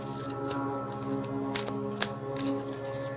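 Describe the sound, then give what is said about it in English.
Cards being spread or cut from a deck give soft papery shuffling and a few sharp flicks over a steady humming background. “We're going to pull from this deck, you guys. Should I spread it or should I cut it, Caps?”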